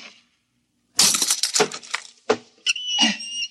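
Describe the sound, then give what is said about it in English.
Lock being smashed open to free someone shut inside a room: a loud burst of sharp cracking and breaking crashes, then a few separate hard impacts, ending with a brief clinking rattle. “Let me out. I'll have to smash the lock.”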